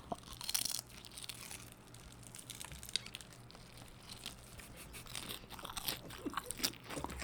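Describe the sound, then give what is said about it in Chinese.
Crisp crunching and chewing of fried chicken, with many sharp, irregular bites and crackles and no talking. “这好好吃哦！我再吃一口，我肚子好饿。”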